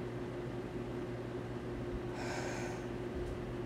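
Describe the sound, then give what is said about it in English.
A single soft, airy inhalation drawn deeply in through the nose, lasting under a second, rising faintly above a steady low hum. “hand on your chest, hand on your stomach, and you're gonna breathe through your nose. I feel your belly up with air.”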